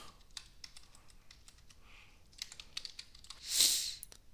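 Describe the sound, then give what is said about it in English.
Typing on a computer keyboard produces many quick, faint keystroke clicks in an uneven rhythm, with a short flurry of keys near the end. “And let's just type it in.”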